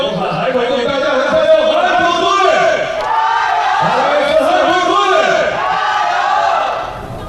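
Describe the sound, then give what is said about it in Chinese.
Volleyball arena crowd chanting and cheering in support of the Haikou team: a dense, sustained roar of many voices with rising and falling shouted tones throughout, easing slightly at the very end. “刚才我们为杭州队加油，接下来为海口队加油”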